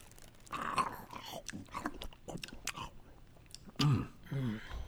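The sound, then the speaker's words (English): Biting into and chewing fast-food meat: faint moist chewing and soft crunches, with one louder bite standing out near the end. “Animal flesh. I haven't tasted animal flesh ever, I don't think. Well, shall we take a bite here?”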